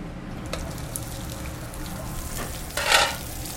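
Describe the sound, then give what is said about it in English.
Cauliflower sears in a hot pan with a steady, even sizzle and crackle that swells into a louder spitting burst near the end. “I hate mushy vegetables, and I like cauliflower a little more al dente, so I'm going to try to get a nice sear on one side but keep the other side a little crispy.”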